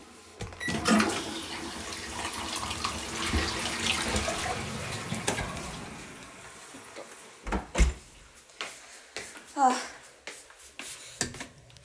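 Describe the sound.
Toilet flush: a loud rushing surge of water that gradually fades over several seconds, followed by a few scattered clunks and a brief voice.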